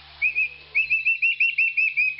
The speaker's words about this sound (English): they do have different vocalizations. So they have that, and then they have this like chirping, clicking